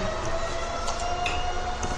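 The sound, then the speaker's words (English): A siren sounds continuously during a meeting. It is a sustained, steady tone over a dense, loud rumble, with no talk heard. “I started to hold up because of the siren, but it goes on for a long time.”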